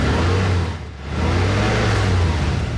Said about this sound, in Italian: È il sound del nuovo motore V6 Infinity ad alte prestazioni. Non sembra, eppure è un diesel.